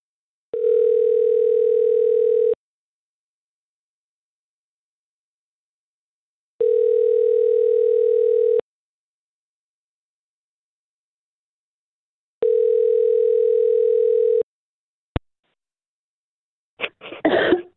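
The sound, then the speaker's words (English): Telephone ringback tone heard while a call is being placed, three long steady buzzing tones with even gaps of silence between them, followed by a click and a short burst of sound as the line connects. “let's just give Callie a call and see what we can figure out, okay?”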